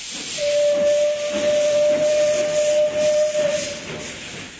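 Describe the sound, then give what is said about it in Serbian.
A steam train's whistle as it departs: one long, steady, loud tone held for about three seconds over a constant hiss of steam, with no voices. “Oh, ode mi voz. Šta ću sad? Sljedeći kreće tek u četvrtak u 22.17”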